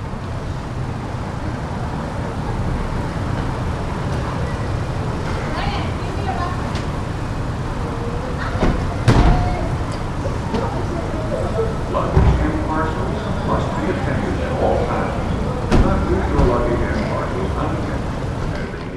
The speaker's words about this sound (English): We are curbside at the Boise Airport, and boy, is it cold, and wow, is it late.